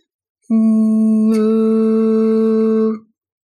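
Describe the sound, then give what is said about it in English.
A voice holds a steady "ooh" vowel on one unchanging pitch for about two and a half seconds, with bright forward resonance, and a brief click partway through as a straw is taken out of the mouth while the tone continues. “I'm going to have the straw in my mouth and I'm going to remove it while still saying, ooh, and keeping the structure in the same placement so that I still have that good forward resonance.”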